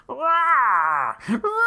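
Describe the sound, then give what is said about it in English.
A human voice imitates a giant monster's roar from a 1970s cartoon: a long, wavering, moaning wail that holds and then drops off, followed by a shorter second cry. “I will again refer you all to the 1970s Godzilla cartoon where Godzilla sounds like this.”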